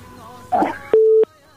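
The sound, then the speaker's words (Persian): Telephone line tones sound after a caller's call drops: a short, noisy burst, then a single steady mid-pitched beep lasting about a third of a second, followed by near silence. “بله فکر میکنم تماس باز هم تماس قد شد.”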